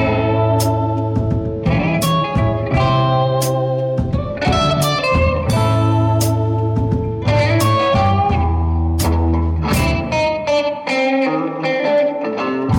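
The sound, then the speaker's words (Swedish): Opening theme music from a TV crime series plays loud and continuous: heavily effected, distorted tones and chords shift every couple of seconds over a steady, droning low bass, with sharp accents cutting through. “det är titelsekvensen. Ja. Som är så oerhört märklig. Om man inte har sett det, den låter så här.”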